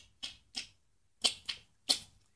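Sharp mouth clicks made by a person imitating sperm whale clicks. Five crisp, fairly quiet clicks come in an uneven rhythm, two, then two, then one, with no talk between them.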